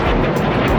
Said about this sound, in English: Rockets and drones fired at Israel from Lebanon by the armed group Hezbollah.